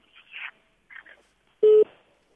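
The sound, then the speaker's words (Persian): A telephone tone on a radio call-in after a caller's line drops: a few faint, garbled bursts on the line, then a single short, steady beep at a fixed pitch. “متاسفانه تماس از شنونده ما قطع شد، یک شنونده دیگه هم داریم روی خط.”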